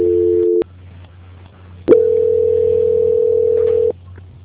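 Telephone tone during a call transfer: a steady electronic tone cuts off, faint line hum fills a short gap, then one louder, longer steady tone of about two seconds stops abruptly.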